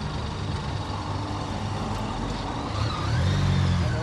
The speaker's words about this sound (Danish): Vi kører ned i sidegade.